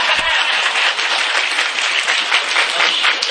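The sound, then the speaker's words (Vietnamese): Steady applause from an audience at a Buddhist temple gathering, dense clapping that runs loud and unbroken for about three seconds with no voices on top. “4,400, vỗ tay nữa đi.”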